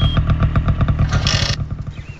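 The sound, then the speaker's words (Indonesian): A motorcycle engine arriving, with a loud, steady throbbing beat and a brief rattling clatter partway through. “Eh, itu macam bunyi motor.”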